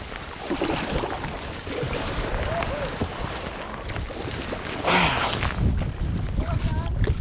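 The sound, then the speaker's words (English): A kayak paddling through a narrow gap between rocks along a coastline, with continuous watery splashing and wind noise that swells in the middle and again toward the end. “We're going to have to lift that paddle vertical to get it away from the rock as we go through.”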